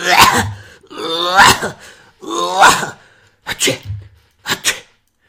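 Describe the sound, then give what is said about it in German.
A voice imitates a child's croup cough with a series of harsh, raspy, barking bursts. They come in uneven clusters and are loud at first, then shorter and quieter toward the end. “Das war echt, wie sagt man, Krupphusten galore, was der da hier mir ins Genick geblasen hat.”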